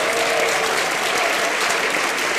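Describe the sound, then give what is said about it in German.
An audience breaks into applause when asked to clap, a dense, even wash of many hands that holds at a steady level from start to finish, with no one talking over it. “Bitte mal Bayern klatschen, dass ich weiß, wie viele Bayern.”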